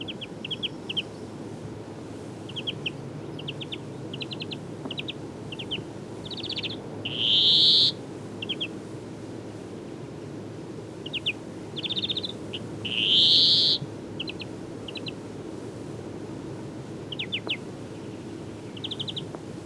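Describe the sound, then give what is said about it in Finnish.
A European greenfinch sings, giving many short, high chirping trills in quick bursts broken by two long, loud wheezing buzzes, with no talk. “Kuuntelemme vielä viherpeipon reipasta laulua.”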